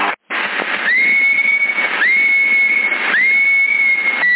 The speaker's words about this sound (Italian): Prova a fischiare già, perché così è stabile.